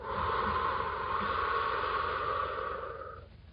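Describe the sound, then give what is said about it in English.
A slow, steady exhale during a guided breathing exercise timed to a count of three, a continuous breathy hiss lasting about three seconds before it tapers off, with no talk. “Breathe out for a count of three.”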